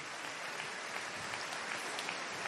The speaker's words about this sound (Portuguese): Uma salva de palmas